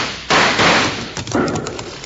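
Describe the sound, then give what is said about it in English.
Gunshots ring out in an old-time radio western shootout: a few sharp, loud bangs, each with a harsh, noisy tail that rings briefly before the next. “Stand your ground and shoot it out, partner.”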